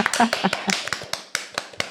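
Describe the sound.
Applause in greeting: a run of sharp, crisp handclaps at a fairly quick, uneven pace with a voice heard underneath near the start, thinner than a full crowd's ovation.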